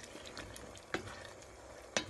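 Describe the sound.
Onion and bell pepper fry in a pan with salt while being stirred, giving a faint, continuous sizzle broken by two sharper scraping strokes.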